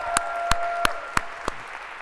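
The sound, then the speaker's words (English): Audience applause for a course's staff team at a hackathon and fair. Five sharp, evenly spaced loud hits stand out over a steady wash of clapping. “So if we could, a big round of applause for CS50's team.”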